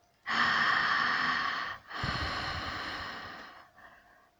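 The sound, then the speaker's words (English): Deep, slow breaths drawn in during a guided breathing exercise, as if into the pelvis: a long, airy, loud inhalation, a short pause, a second long breath, then a fainter trailing breath. “Keep inhaling into your pelvis.”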